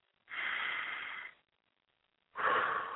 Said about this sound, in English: Inhale, exhale. Breathe in through your nose. Breathe out with your mouth.